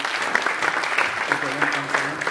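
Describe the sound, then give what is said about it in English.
Audience applause at a church service: a dense, even patter of many hands clapping that holds steady throughout the short stretch. “Can we have a wee round of applause for Emily?”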